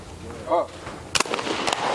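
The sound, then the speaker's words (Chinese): A sharp rifle shot cracks during a shooting competition as a competitor takes a second turn at firing. One clear, abrupt report stands out, a fainter crack follows shortly after, and a voice is heard nearby. “这样的话，齐莹将要进行第二把的射击。”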